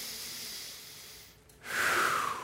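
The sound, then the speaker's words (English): A deep breath drawn as a soft airy hiss that dips briefly, then swells into a louder, rushing breath for the last second, with no talk over it. “Can we just take a deep breath?”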